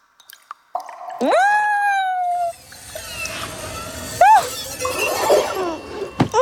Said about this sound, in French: Les parois de la grotte ruissellent. La roche est mouillée.